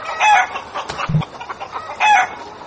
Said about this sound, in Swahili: walikuwa na kibarua kigumu Alhamisi wiki hii cha kuwafukuza mamia ya kuku waliokuwa wakizurura kwenye mitaa ya mji wa Puyallup, county ya Pierce